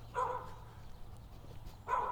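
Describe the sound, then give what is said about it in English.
A dog barks twice, each bark short and mid-pitched, with a pause of more than a second between them over a low background hum. “I see you. Yes, you're barking at me.”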